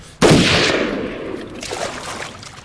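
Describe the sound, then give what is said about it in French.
A single gunshot in a forest gives one sharp, loud crack, then a long, rumbling tail that slowly fades away. “La détonation fit un bruit d'explosion dans le silence de la forêt.”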